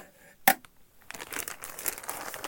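Crinkling of the plastic bag that an old 1996 novelty item was packaged in. One sharp crackle comes first, then after a short pause a steady run of dense, rustling crinkles as the bag is handled.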